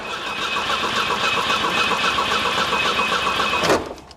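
An old car engine cranks in neutral but fails to start. The starter whirs loudly and evenly for nearly four seconds, with a rapid chugging rhythm, then cuts off abruptly without the engine catching.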